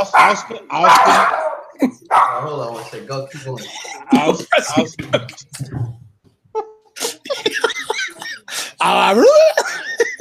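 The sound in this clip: A dog barks in a few short, sharp bursts, mixed in with people talking nearby.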